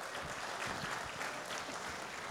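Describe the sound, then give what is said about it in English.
Audience applause welcoming a pastor to the stage at a church service: a steady, dense wash of clapping that holds at an even level for the whole stretch, with no voices. “Yes. Give him a hand.”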